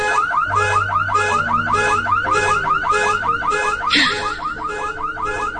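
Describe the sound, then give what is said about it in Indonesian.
A car alarm blares loudly in a parking lot, cycling through rapid, repeating warbling tones in a steady, insistent rhythm that fills the whole stretch without pause. “terdengar suara alarm mobil berbunyi keras.”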